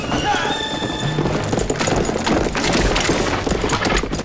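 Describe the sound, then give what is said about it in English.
Two horses gallop at full speed pulling a runaway buckboard, a dense, continuous, loud clatter of hooves, with a high whinny rising over it near the start. “The buckboard horses gallop at full speed.”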